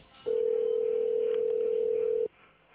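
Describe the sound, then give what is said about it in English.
A single steady telephone tone, like a dial tone, plays during a call transfer. It holds one unchanging pitch for about two seconds, alone against a quiet line, then stops abruptly. “If you know your party's extension, you may dial it. Wait while I transfer your call.”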